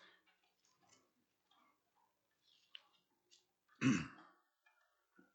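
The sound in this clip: Throat clearing from someone with a cookie stuck in the throat: one loud, harsh, rasping burst that stands out sharply against near silence and a few faint ticks.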